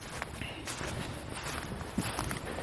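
Footsteps walking cross-country off the path into a forest where wild boar have churned the earth, a steady crunching tread blended into constant, dense rustling noise with no clear pauses.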